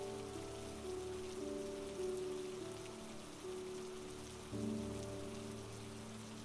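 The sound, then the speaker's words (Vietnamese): Rain falling during a storm, a steady, even hiss of drops on surfaces that holds at a constant level throughout. “khi trời nổi mưa giông, đột nhiên trong lòng anh dâng lên một nỗi bất an lạ lùng, khó chịu nôn nao. Nhưng dù sao trời vẫn đang giông gió”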